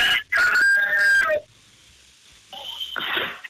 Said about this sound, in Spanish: Hasta el gallo se emocionó de que te marcamos, güey.